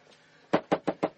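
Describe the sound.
Five firm knocks strike a house door at night, evenly spaced and fairly quick after a moment of near silence. Each rap is a solid, resonant thud of similar strength.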